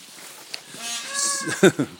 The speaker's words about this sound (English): hello, little lambs, how are you?